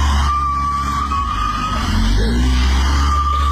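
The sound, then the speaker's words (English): Tyres spinning and skidding on a car trying to pull away with the handbrake still on and smoke everywhere, a loud, continuous, strained roar with a steady tonal whine running through it from start to finish. “There's smoke everywhere. He's trying to get away, but the handbrake's still on. Handbrake on.”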